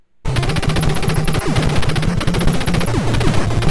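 Rapid machine-gun fire from the Contra video game, a fast, steady stream of electronic shots over looping chiptune game sounds, loud and continuous after a brief silent start.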